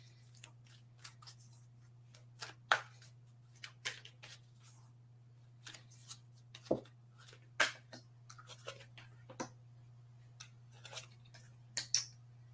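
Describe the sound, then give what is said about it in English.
Oracle cards being shuffled and pulled for a card reading: many soft, crisp taps and flicks in an irregular rhythm over a steady low hum, with no talking. “So for just like a general reading, I'm going to pull three cards.”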